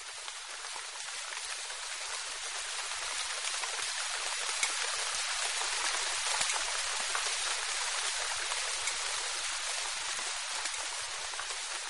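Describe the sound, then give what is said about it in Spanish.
Rain falling as a steady, dense hiss of countless drops, even in loudness throughout, with no voices. “Porque a veces hay sol y llueve.”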